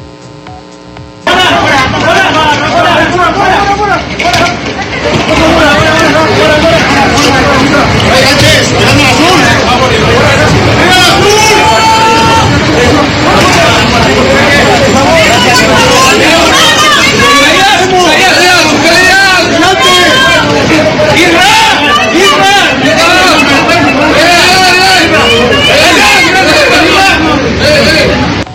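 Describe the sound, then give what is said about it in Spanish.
Loud, continuous crowd hubbub and chatter as a national football team arrives at its hotel in Puebla, a dense wall of overlapping voices that holds steady from start to finish. “Pues ahí tiene parte del ambiente que se vivió a la llegada de la selección al hotel de concentración aquí en la ciudad de Puebla.”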